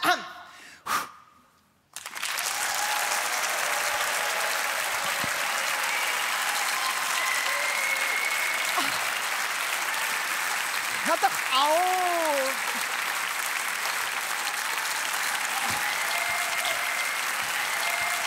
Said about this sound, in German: Und ihr applaudiert es aber immer weiter und dann schneiden wir das nachher so, dass es aussieht, als wäre ich wirklich so beliebt.